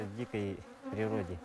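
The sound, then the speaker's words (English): Wild Bashkir honey bees buzzing around their honeycomb, a loud, steady droning hum that swells in two bursts with a short dip between them. “Is it true that these bees are more aggressive than regular bees, Azamat? It's true that Bashkir bees are somewhat aggressive because they've always been out in the wild.”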